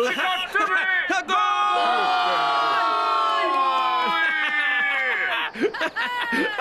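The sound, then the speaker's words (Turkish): A football crowd erupts for a goal in a loud, sustained massed cheer full of shouting voices, which holds strong before breaking into scattered shouts at the end. “Bir şey mi diyordun? Golün sesinden duyamadım da.”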